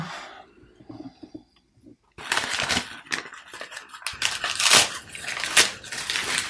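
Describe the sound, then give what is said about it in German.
Gift wrapping paper being roughly torn off and crumpled as a present is unwrapped. A dense run of crackling, rustling bursts starts after a quiet opening and continues steadily to the end. “Ich bin mal sehr grob, das Geschenkpapier, da tue ich mal weg, ne?”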